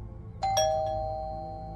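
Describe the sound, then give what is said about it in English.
A doorbell chimes two tones, a higher strike followed quickly by a lower one. Each tone rings on and decays slowly over a quiet background. “The doorbell sent a zap of adrenaline through Kara's body.”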